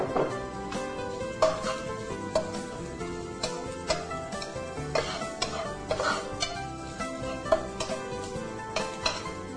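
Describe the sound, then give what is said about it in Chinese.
Shallots and dried shrimp stir-fried in oil: a spatula scrapes and clatters against the pan in an irregular rhythm over a soft, steady sizzle. “那我们这个红葱头跟这个虾皮啊，在炒的时候实在会让你香到不行，这两个是绝配的哈。”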